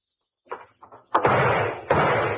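Gunshots from a gun: a couple of softer bangs, then two loud sharp reports, each followed by a long, dense rumbling decay.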